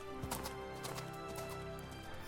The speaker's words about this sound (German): Das weiße Pferd rannte umgehend los und galoppierte schnell wie der Wind nach Hause.